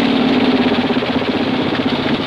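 Military trucks escorted by two motorcycles drive past stone houses in a village, a loud, dense engine drone with a steady low hum that holds without clear rise or fall.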